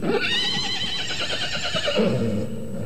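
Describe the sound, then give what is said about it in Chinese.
A horse whinnies loudly in one long, quavering neigh with a trembling, wavering tone. A lower, rougher tail closes the call. “马儿啊，你千里迢迢跑来找我，是不是家里发生了什么事情？”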